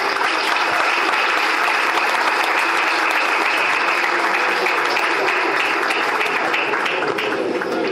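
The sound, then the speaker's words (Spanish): An audience applauds to welcome a lecturer at a conference talk, with dense, sustained clapping that stays even and loud for the full eight seconds and no voices over it. “Y bueno, lo recibimos con un aplauso.”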